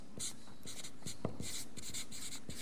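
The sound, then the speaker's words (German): A pen scratches as a phrase is written by hand, with a series of short, dry scraping strokes broken by brief pauses, heard alone. “Also ich schreibe jetzt mal dieses ähnliche Formulierung, ja, am Anfang.”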